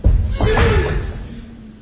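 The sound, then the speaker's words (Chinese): A door is pushed open slowly and cautiously on a stage for Chinese opera or folk performance. A dull thump opens into a loud, wavering hinge creak that bends in pitch before fading away. “小心翼翼地推开门走进房间”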